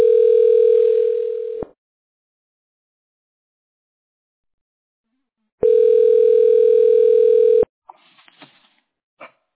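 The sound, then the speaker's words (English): Telephone connecting tone as a call is put through an online calling service: two long, steady buzzing tones separated by silence, followed by a few faint clicks. “Google Voice is trying to connect me.”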